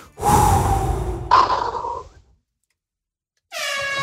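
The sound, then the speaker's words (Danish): Deep breaths drawn in together before a quiz round: two long, loud, breathy rushes of air, one after the other, then a pause of silence before a loud, steady horn-like buzzer tone begins. “Vi tager lige en dyb indånding sammen.”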